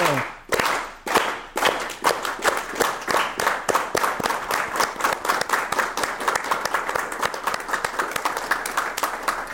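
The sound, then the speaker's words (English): An audience applauds, with a few scattered claps settling quickly into loud rhythmic clapping in unison that keeps a steady beat. “Please give a big round of applause to these guys. Let's keep the clap going.”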